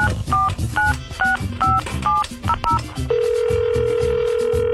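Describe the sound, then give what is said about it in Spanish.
A phone is being dialed. A quick run of short keypad tones beeps over a rhythmic music bed, then gives way to one steady, continuous line tone that holds to the end. “Vamos a marcarle a ver si contesta, oye.”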